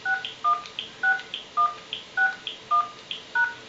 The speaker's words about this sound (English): please enter your PIN, then press the pound key.